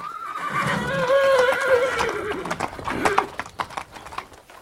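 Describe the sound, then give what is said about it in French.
A horse tied to a tree whinnies, a loud harmonic call that falls in pitch, followed by a few sharp hoof clops. “une jeune femme qui tourna résolument le dos au colloque et marcha vers un cheval attaché à un arbre.”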